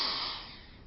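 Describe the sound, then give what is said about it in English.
A voice imitates a long sniff at a letter, one breathy inhalation that starts strong and fades over about a second. “I would hold it to my face, and I would sniff. I would go,”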